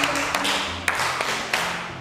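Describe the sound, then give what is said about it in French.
A class claps on cue, with a few sharp, spaced claps in a loose rhythm over a low background murmur. “Très bien, applaudissez.”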